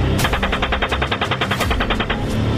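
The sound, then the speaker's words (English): Loud automatic gunfire from a military engagement video: one continuous burst of many rapid shots at a steady, fast rhythm. “Alright, we got a guy with an RPG. I'm gonna fire. Oh, we got a guy shooting. Now he's behind the building. Come on, fire.”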